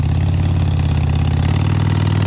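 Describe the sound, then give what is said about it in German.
A vehicle engine runs in commuter traffic over a mountain pass, a loud, steady low rumble like idling that holds without breaks. No voices are heard. “Es hat darum viel Verkehr über den Pass. Pendlerinnen und Pendler auf dem Weg zum Arbeiten oder zum Einkaufen, ein Postauto und Lastwagen.”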